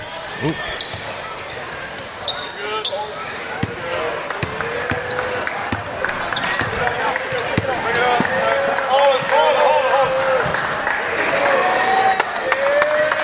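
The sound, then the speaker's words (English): A basketball dribbled during a high school basketball game, many sharp, steady bounces running throughout over continuous crowd noise, applause and voices. “They're just dribbling it out.”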